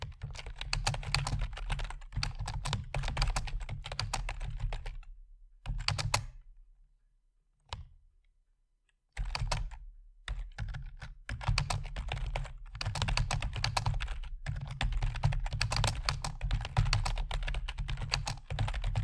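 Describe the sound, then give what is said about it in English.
Fingers type on a computer keyboard in long, rapid runs of many keystrokes. The typing stops briefly midway, with a few isolated taps in the gap, then resumes steadily to the end. “I'm going to write you like a sign off. Like I'm going to type what I want you to, the last thing I want you to hear in this.”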